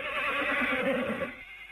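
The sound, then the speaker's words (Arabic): A horse neighs as a flying horse is summoned in a story, a loud, wavering whinny that holds for just over a second and then cuts off. “طيب يا شنكار انا حديك الحصان الطيار. حضور حضور قدامنا. حالا اظهر الباب حصان حصان”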